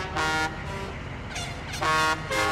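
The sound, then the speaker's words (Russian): Drivers honk car horns: several overlapping honks, harsh and buzzy. Two louder blasts stand out at the start and near the end, with a steadier tone between them. “Дирижирует, водители сигналят.”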